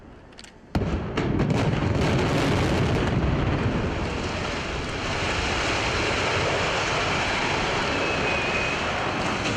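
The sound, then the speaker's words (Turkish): Dynamite charges fire in rapid succession to bring down a 48-year-old, 16-storey building in a controlled demolition using nearly 500 kg of explosives. A sudden loud blast leads into a quick string of cracks, then a sustained, rumbling roar. “Ardıl şekilde ateşlenen dinamitler peş peşe patladı. 48 yıllık bina kontrollü şekilde saniyeler içinde yerle bir oldu.”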